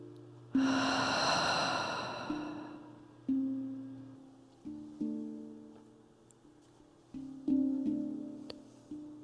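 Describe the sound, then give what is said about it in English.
Deep breath during a guided stretching exercise for the spine, chest and shoulders: one long, airy, breathy rush early on, with soft sustained tones playing beneath it and continuing alone afterward. “And one more, big breath in. And big breath out.”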